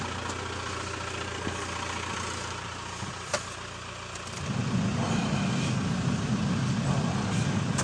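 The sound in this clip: A car engine idles as it warms up after being started. A steady hum is broken by a brief click, then at about four seconds the low rumble grows louder and rougher and holds steady. No one speaks.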